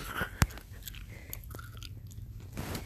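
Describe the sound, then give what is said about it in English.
Potato chips being eaten with a crunch, opening with one sharp, clear bite and followed by faint, scattered crunching and chewing over a quiet background. “These chips are really good. And crunchy.”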